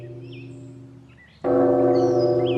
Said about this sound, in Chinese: 黎明时我一听到钟声精神就振奋起来，打坐念经特别专心呢